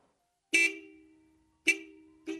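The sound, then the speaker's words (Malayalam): Three toots of a car's horn as the car arrives, each a bright, buzzy note. The first blast is held longest and the last is shortest, with quiet between them. “ഒരു കാറിന്റെ sound അല്ലേ ആ കേട്ടത്?”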